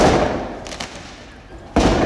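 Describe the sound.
Firework mortar shots crack out during violent street clashes between protesters and police near a high school in Argenteuil. A loud blast opens, two fainter pops follow in the middle, and another loud bang closes it.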